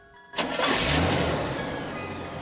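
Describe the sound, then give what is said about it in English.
A car engine cranks and catches, surges into a loud roar, then settles into a steady running tone that slowly fades as the car drives off, with no talk. “gets behind the wheel and drives off.”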